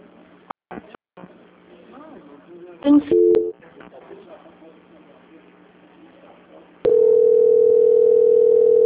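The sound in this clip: A telephone ringing tone on the line: a steady low-pitched tone cuts in abruptly near the end and holds unbroken, after a stretch of quiet line hiss broken by a few brief clicks and bleeps.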